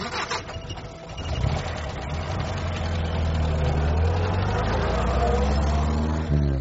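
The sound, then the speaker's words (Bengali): A car engine is started by the driver and settles into an idle: a steady, fairly loud low rumble that holds evenly to the end, with no voices. “তারপর সকলেই গাড়িতে উঠে বসতে driver start দিল।”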